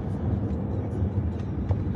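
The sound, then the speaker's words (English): A car driving in Texas, heard from inside the cabin, gives a steady low rumble of road and engine noise with faint higher whooshes passing over it. “Yeah, I'm driving now.”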